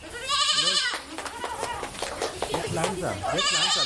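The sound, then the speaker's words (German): A young goat kid bleats in a stall, giving wavering, nasal cries at the start and again at the end, with people talking in between. “Ich kenne das Zicklein, das ich verspeisen will, persönlich Und ich gehe in den Stall, schaue nach, wie es Paula geht.”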